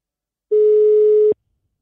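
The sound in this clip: A telephone line signal sounds as a call is dialed: one steady, pure mid-pitched tone that lasts under a second, alone in silence.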